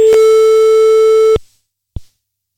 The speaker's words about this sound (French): On recompose le numéro de téléphone par acquis de conscience. Ce petit bruitage vous est offert pour patienter.